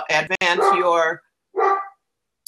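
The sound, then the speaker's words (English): A dog barks to be let in: loud, voice-like harmonic barks, a quick cluster and then a shorter burst after a pause, with no talk over them. “Somebody's dog wants to come in. Yes, my dog.”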